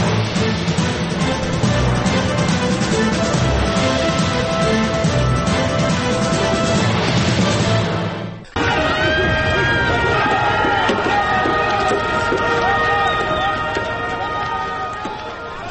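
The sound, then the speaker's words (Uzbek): Crowd noise from an anti-American protest: a dense, unbroken roar of many voices that dips briefly midway, resumes at full strength and eases slightly toward the end. “hozirgina eshitganimiz, demak, dunyoni turli nuqtalarda yuzaga chiqqan Aksel Amerika tadbirlaridan bir parcha edi.”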